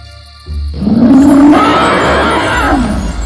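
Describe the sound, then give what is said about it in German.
A loud, deep dragon roar from a fairy tale set in a cave. It bursts in after a brief quiet start and holds as one sustained, growling, rumbling roar to the end. “Aber es war zu spät, denn der Drache öffnete seine heftigen Augen. Und als er die beiden Männer sah, brüllte er laut.”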